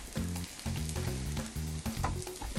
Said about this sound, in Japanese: まだ柔らかいな。もうちょっと焼くな。焦げ目つくぐらいがいいよね。